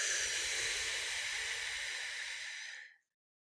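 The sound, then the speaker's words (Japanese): Breathing out through the mouth during a guided breathing exercise: one long, airy hiss of exhaled breath, steady for about three seconds before fading quickly into silence. “鼻から息を吸ってたら口から吐く。”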